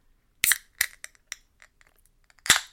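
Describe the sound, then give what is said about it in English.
A can of hazelnut brown ale cracks open with a few sharp metallic clicks and fizzy bursts, a loud one at the start and another near the end, with faint small ticks between them. “I have Rogue Hazelnut Brown Nectar. I'm going to crack Nectar.”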